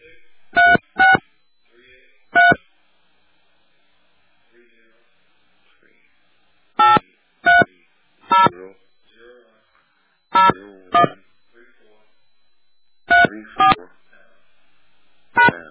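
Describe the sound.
Telephone keypad tones as a caller enters a personal ID number for a calling-card service: many short, sharp beeps in small clusters separated by pauses, clear and loud over near silence.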